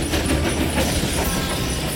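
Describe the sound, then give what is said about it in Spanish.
Train carriage rolling along on a mountain journey, a steady, loud rumble with a continuous rattle of wheels on track and no voices. “Durante la primera noche de unas vacaciones por la montaña, cuatro turistas coincidieron en un mismo vagón.”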